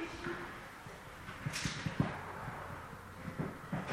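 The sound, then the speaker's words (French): A microphone is taken off and handled, giving several dull thumps and brief scraping knocks scattered irregularly over a low, steady background. “Tu prends le micro et tu l'enlèves. Voilà, tire devant toi.”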